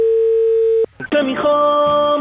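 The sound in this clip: A steady, loud telephone dial tone while a call is being placed. It is cut off by a short click and gap, then followed by another sustained tone.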